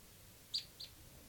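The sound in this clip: Soft bird calls: two short, high-pitched chirps in quick succession, faint over a quiet background hiss.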